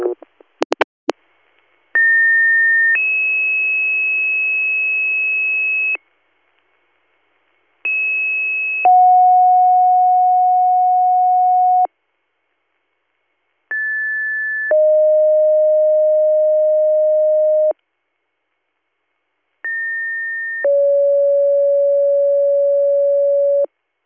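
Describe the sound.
Emergency dispatch paging tones for an EMS call. After a few brief clicks, four two-tone sequences sound, each a short steady tone followed by a longer steady tone of another pitch. Gaps of silence separate the sequences.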